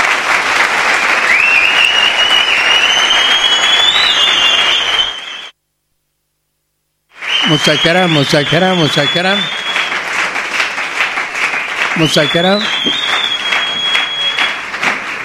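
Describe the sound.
Applause honouring a live orchestra at a celebration: loud, steady clapping with high whistles and cheering voices over it. It breaks off into a short silence partway through, then resumes just as strongly.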